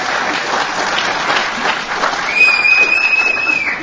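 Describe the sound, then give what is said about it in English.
Audience applause at a live talk, dense steady clapping that fills the whole stretch and swells slightly toward the end, with no speech over it. “And he deserves a little bigger applause than that, I'll tell you.”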